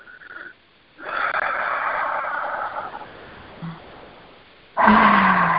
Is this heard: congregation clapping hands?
no